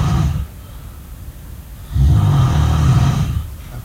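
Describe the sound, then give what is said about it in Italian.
A person snores with low, rasping, throaty breaths. The tail of one snore is followed by a quiet pause, then a longer, louder snore. “Questo non è il... non sono io che sto russando, vero? Non mi hai registrato di nascosto.”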